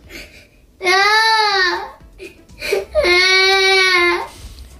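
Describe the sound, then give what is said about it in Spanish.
A little girl cries over her torn pajamas: two long, loud, wavering wails with a brief sobbing gasp between them. “Esta niña se pone a llorar porque tiene también, igual, el pijama roto y la madre le dice que se lo ha hecho el elfo porque se ha portado mal.”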